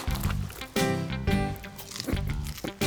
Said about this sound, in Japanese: まだ時間あるし、ポップコーン食べてよぜ。ここのうまいんだよな。